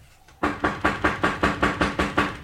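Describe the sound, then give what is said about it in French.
Rapid knocking on a door, a long run of evenly spaced, sharp raps in a steady fast rhythm that starts abruptly and keeps going without pause. “Qui est là? Qui c'est qui frappe?”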